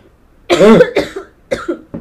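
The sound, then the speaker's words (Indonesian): A person coughs loudly a few times in quick succession, a long harsh first burst followed by shorter, rougher ones, with quiet between. “sekejap aku nak batuk”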